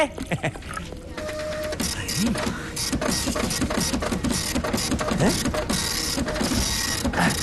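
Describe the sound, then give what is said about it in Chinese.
A printer runs while printing a document at a farm machinery cooperative. Its mechanism gives a continuous busy rattle of rapid clicks and whirring that stays at an even, moderate level throughout. “你打印的这玩意儿出来了啊？”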